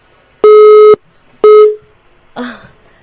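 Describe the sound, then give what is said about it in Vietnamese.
A telephone busy tone after a dropped call gives two loud, steady beeps, the first longer than the second. A shorter, rougher and noisier burst follows after a brief gap. “Tín hiệu của chúng tôi đang bị mất một tín hiệu điện thoại nhưng mà Phương Hiền nghĩ rằng là sẽ kết nối lại ngay.”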